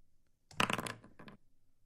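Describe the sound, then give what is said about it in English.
Many dice rolled for a tabletop game's loot table clatter in one brief burst of rattling hard clicks and knocks lasting under a second. A softer tail of small rattles follows before it goes quiet. “Why are you rolling so many dice privately? Well, it's rolling from a loot table.”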